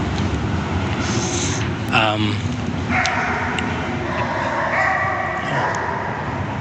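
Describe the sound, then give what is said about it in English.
A dog barks and yelps beneath a highway, its short harsh cries rising briefly over a steady, loud rumble of passing traffic that fills the whole clip. “No, that is a dog. Wow. That dog doesn't sound too happy.”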